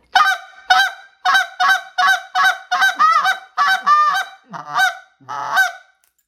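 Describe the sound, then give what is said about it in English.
A handheld goose call blown to imitate high-pitched goose honks gives a long series of sharp, nasal honks in a fairly steady rhythm, clear and loud with no talking. The last few honks come more widely spaced. “I got that good goose sound. I got the high pitch that can carry.”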